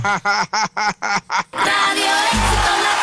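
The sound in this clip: A duck quacks six times in a quick, even rhythm of nasal honks. A loud, sustained wash of noise follows, similar to a cheering crowd.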